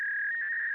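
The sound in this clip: A steady electronic tone holds on a phone line to the Chinese embassy, likened to a number station. It is one unbroken, even, mid-high pitch that stays level and constant for under a second, with no voices.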